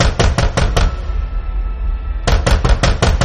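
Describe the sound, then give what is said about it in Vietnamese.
Knocking on a door by a little girl comes in two bursts of rapid, sharp raps, the first short and the second longer, separated by a quiet gap with faint background noise. “Nó gõ cửa khiến cho bà vợ giật mình.”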